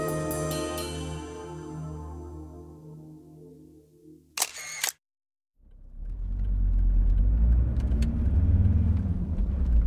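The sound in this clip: Low, steady rumble of a car driving to the airport, rising after a brief sharp mechanical burst and a moment of silence, with a sustained tonal passage at the start.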